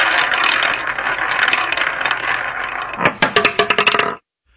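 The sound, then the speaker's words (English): A prize wheel spinning: a dense stretch of noise gives way to a quick run of sharp clicks near the end, then silence. “let's spin it. I love the wheel.”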